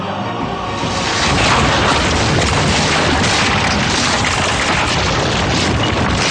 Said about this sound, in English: A ruthless and irresistible blast shook them.